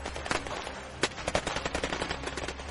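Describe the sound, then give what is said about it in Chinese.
Automatic gunfire from a combat squad opening fire: many rapid, rattling shots in dense continuous bursts over a low rumble, loud and sustained throughout, with no voices. “枪声轰鸣如雷霆。”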